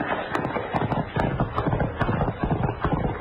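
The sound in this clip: Galloping horse hooves during a western chase on horseback: rapid, rhythmic clip-clop thuds pounding steadily throughout.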